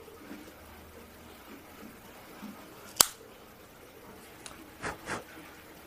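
A cigar cutter snips the end of an Ave Maria Lionheart cigar with one sharp, crisp click against a quiet background, and a few soft bursts follow.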